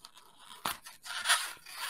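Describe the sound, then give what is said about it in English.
A spoon scoops and scrapes into a hollow object in a few short, crunchy bursts, mostly quiet with a rougher, louder scrape near the end. “Just diving into it with a spoon. This is now an ASMR podcast. Yeah, there we go. Oh, it's hollow on the inside.”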